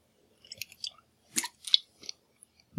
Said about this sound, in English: And I'm drinking from a Viso energy drink, which I meant to drink 3 days ago.